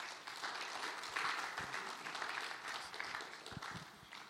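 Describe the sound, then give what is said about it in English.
An audience applauds at a church service as a pastor comes up to speak. The clapping is steady and dense but faint, running without a break throughout. “So why don't we give him a big hand as he comes?”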